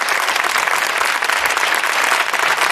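Studio audience applause on a Spanish television programme: a dense, loud, unbroken wash of many hands clapping that holds steady throughout, with no voices over it.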